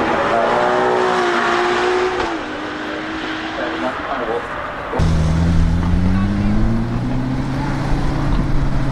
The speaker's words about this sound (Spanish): Y ahora vamos a cambiar de motor un poco, de forma radical. De ese sonido de este Ferrari hermoso,